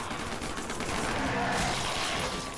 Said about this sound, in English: Let's go shooting now, everyone is shooting now.